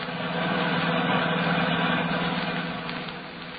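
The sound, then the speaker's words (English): A car engine hums steadily while driving through the San Bernardino Valley, a dull, even mid-low drone that swells slightly and then eases toward the end. “We find them now driving back to Hollywood through the beautiful San Bernardino Valley.”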